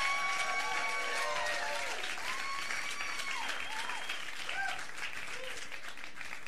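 An audience applauds guests being welcomed onto a show: dense, steady clapping fills the whole stretch, with cheers and whoops rising over it, easing slightly near the end.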